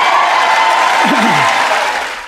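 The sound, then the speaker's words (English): Crowd applause and cheering rise from the chamber at a State of the Union address, a steady, loud wash of clapping that holds evenly, then fades out at the end. “that was Joe Biden in last night's State of the Union address, and they got up and cheered, those on the left, for abortion”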